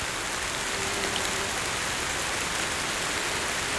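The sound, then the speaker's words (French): Light rain falls in a steady, even hiss of fine drops that continues unbroken throughout, with no voices. “une fine pluie éclabousse vos oreilles.”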